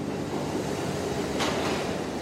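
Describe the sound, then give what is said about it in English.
Subway train rumbling along the tracks with a steady, loud, low roar and a brief hiss partway through; no voices. “The next stop on this train will be 34th Street and 6th Avenue.”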